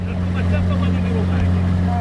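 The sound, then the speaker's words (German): A motorboat drones across the Valli di Comacchio lagoon over wind-rippled green water, its low engine hum steady and loud throughout, with a constant wash of water and wind noise above it. “Unterwegs im Motorboot auf den Valli di Comacchio. Grünliches Wasser, vom Wind leicht geriffelt.”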